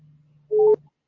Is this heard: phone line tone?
yes